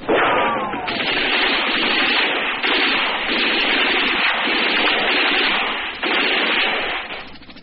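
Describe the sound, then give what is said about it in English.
Machine gun and automatic rifle fire from infantry bunkers spraying trees make a dense, loud, continuous roar of rapid reports, with a few sharper surges, that barely lets up before easing slightly at the end. “I see the infantry bunkers below, machine gun and automatic rifle flashes. They're spraying the trees, trying to keep the snipers off of us.”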